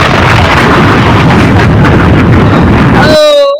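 A bomb-drop sound effect: a loud, roaring, explosion-like rumble of broad noise lasting about three seconds, ending with a short tonal sound before it cuts off.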